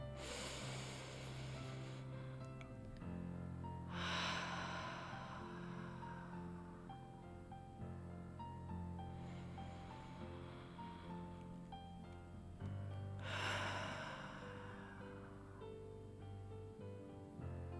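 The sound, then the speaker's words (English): A person takes deep breaths: a few long, soft, airy rushes of inhaling and exhaling, each a couple of seconds long and spaced apart, over a faint steady background. “Okay, so I'm going to take a deep breath.”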